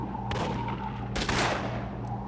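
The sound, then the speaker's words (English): Gunfire from a stamp mill at a mine headquarters during a gun battle: a few broad cracking bursts, the longest near the middle, rise over a steady low hum with no voices. “The only shooting is coming from the stamp mill now.”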